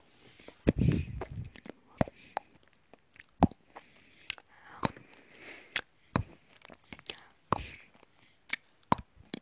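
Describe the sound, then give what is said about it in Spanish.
Chewing a bite of noodles, with quiet, wet mouth sounds made of many small irregular smacks and clicks, a denser burst near the start and then sparser, softer clicks. “Muy bien, ya creo que he acabado mi primer bocado. Ahora eh, voy a llenar mi tenedor de fideos.”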